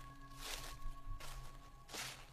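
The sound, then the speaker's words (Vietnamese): Footsteps crunch over layers of fallen leaves blown in from outside onto a dirt floor. Three soft, evenly spaced rustling steps sound faintly over a low steady hum. “Tiếng bước chân dẫm lên những lớp lá bay từ bên ngoài vào.”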